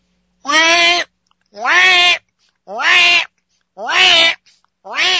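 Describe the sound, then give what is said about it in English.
Cries of loth-cat kittens, a science-fiction creature sound effect: five bright, cat-like meowing wails, evenly spaced with short silences between, each rich in harmonics and sliding slightly upward at the start. “Actually, that is the cry of the Loth Kittens.”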